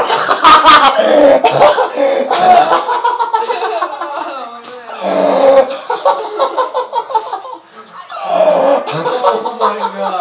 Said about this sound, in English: I just coughed.